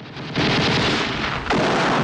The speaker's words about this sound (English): fires another shell, hitting more fuel containers, which explode